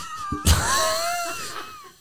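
A household pet cat gives one long, drawn-out meow that starts abruptly after a brief click and wavers in pitch before trailing off, heard alone and fairly loud.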